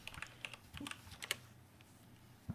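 Typing a Google search on a computer keyboard: many quick, light key clicks in an irregular rhythm, fairly faint, with a sharper tap at the end.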